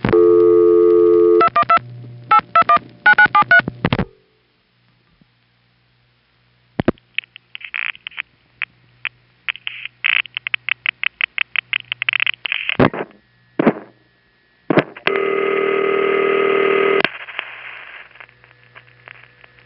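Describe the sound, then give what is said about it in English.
Telephone supervision test line in a panel office: buzzing tone bursts, a silent gap, then a long series of sharp rapid ticks mixed with short tones, ending in a steady buzzy tone that cuts off and fades. “Now, the ticking at the end of the test sounds like it ought to be something very important, but actually the ticking is just the indication that the test has completed.”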